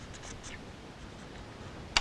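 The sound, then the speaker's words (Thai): Faint, steady scratching of a pen drawing one continuous line on paper, joining curved strokes, with a single brief sharp tick near the end. “ลากมานะคะให้ชนกันลากเส้นให้ต่อเนื่องกันนะคะ”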